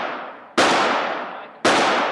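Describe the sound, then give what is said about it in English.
Two loud, sharp gunshots at a shooting range, each a sudden crack followed by a long, slowly decaying ring, about a second apart. “you are killing some time to wait for him by shooting 70 rounds at his gun range. Let me just play this moment”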